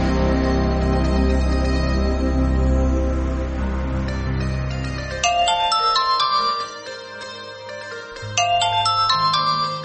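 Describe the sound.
A melodic telephone ringtone plays for an incoming call, with bright, tinkling synthesized notes in repeating phrases over a sustained low tone. It is loud and steady throughout, with no voices.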